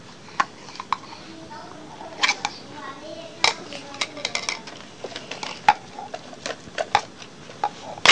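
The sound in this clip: Bowls and dishes being handled and moved about, with many light clicks and knocks in an irregular rhythm, some sharper and louder than others.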